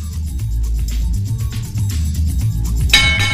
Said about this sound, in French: Elle est en panne, notre clochette, je vous préviens. Elle est un peu fatiguée, hein, vous voyez.